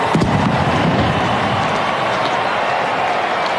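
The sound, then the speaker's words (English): Celebratory pistol shots after an Oklahoma State touchdown in a college football game: a sharp burst near the start, then a sustained broad roar of crowd noise. “Pistols firing.”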